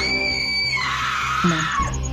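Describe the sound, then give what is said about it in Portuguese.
A shrill, sustained scream during a tabletop horror role-playing game holds a high tone, then drops lower and trails off into a strained, noisy cry. “Nossa, eu vou começar a gritar.”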